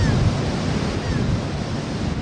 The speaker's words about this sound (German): Umweltschützerin Becca Hinojosa steht am Strand, schaut ernst aufs Meer